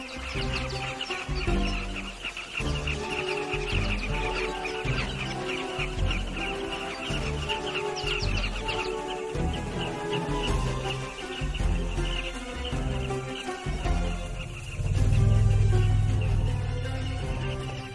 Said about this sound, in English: Countless carmine bee-eaters flock to the newly dried ground.